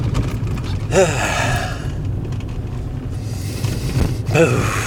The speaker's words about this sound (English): I'm just doing some cleansing breaths